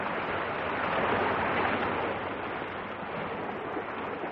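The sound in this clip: Sea water washes steadily at a spot where people go swimming, a soft, continuous surf-like hiss with a gentle swell in the middle and no voices.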